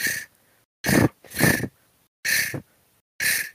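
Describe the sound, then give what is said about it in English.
A diver duck growl is made by rolling the tongue into the back of a mallard call, producing a series of short, raspy, rattling bursts separated by brief gaps. “And all I'm doing is I'm rolling my tongue. So into the back of the call, this is what it sounds like.”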